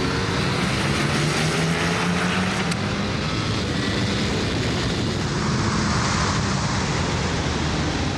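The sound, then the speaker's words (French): A Ducati V4 sport motorcycle accelerates down a track straight, a loud, continuous roar of engine and rushing wind with a faint engine tone climbing early on, holding steady throughout. “de toutes les Ducati que j'ai essayé, c'est la plus puissante et la plus facile. Hop, point de corde, et là la ligne droite.”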